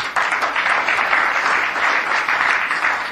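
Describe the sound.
An audience at a spiritual gathering applauds in a dense, even patter of many hands. The clapping stays at a steady loudness for about three seconds.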